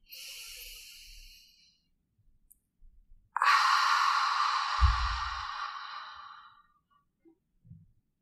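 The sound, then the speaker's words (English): Long, breathy exhale through the mouth, like fogging a mirror, during a guided breathing meditation. A softer breath comes first, then the airy hiss swells and slowly fades out over several seconds. “through the nose to fill up the lungs and exhale through the mouth, making a sound like fogging a mirror. Exhale completely.”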